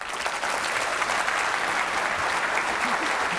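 Audience applause welcomes an economist guest: a thick wash of many hands clapping, steady and even from start to finish with no voices standing out.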